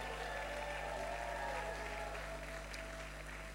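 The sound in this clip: A church audience applauds with a steady, unbroken wash of clapping that holds at an even, moderate level from start to finish, and no single voice stands out.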